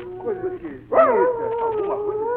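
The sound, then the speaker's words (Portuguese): A hunting dog howls, with long wavering cries gliding up and down in pitch after a short yelp. A voice is also present. “voltou latindo lá de longe, parando entre uivos aos pés do Simão Santos.”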